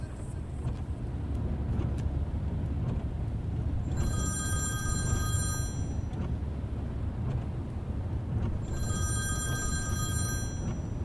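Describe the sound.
A telephone rings twice, each ring a long, high, shrill electronic burst separated by a pause, over a constant low rumble of background noise.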